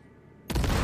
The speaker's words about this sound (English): Hack one of the guards and use the detonate grenade quick hack. Okay. And boom.